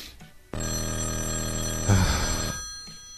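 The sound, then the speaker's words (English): A payphone rings with a single sustained bright metallic bell tone for about two seconds, then cuts off abruptly, and no voices are heard. “I'm probably going to forget to unhook my payphone. It's going to start ringing in the middle of the night, wake me up, piss me off.”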